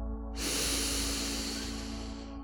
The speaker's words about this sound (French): Nouvelle inspire par le nez en levant légèrement le menton.